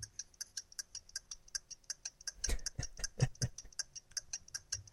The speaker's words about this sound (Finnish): mutta menee minulla paremmin kuin minun työkovalevyllä. Se pitää tällaista ääntä.